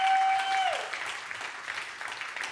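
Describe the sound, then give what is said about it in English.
Congregation applause at a church service, a dense, steady clapping that carries on throughout, with a voice briefly held at the very start. “Yeah, put your hands together again, everybody, every location.”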